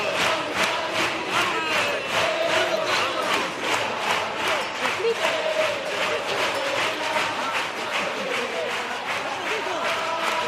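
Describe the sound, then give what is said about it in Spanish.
Theatre audience noise at a carnival chirigota competition: a loud, continuous roar of crowd voices with rhythmic clapping running through the whole clip. “Sonido de teatro.”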